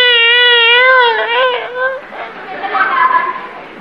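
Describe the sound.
A voice imitates the stylized crying of a female role in Chinese opera: a sustained, wavering high wail that breaks into choppy sobbing sounds and murmured voices.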